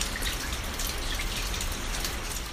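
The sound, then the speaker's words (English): Meltwater drips from a retreating glacier on Alaska's Kenai Peninsula in a dense, steady patter of many overlapping drops. It stays loud and even throughout, with no talk. “That sound you hear is this glacier melting, drip by drip.”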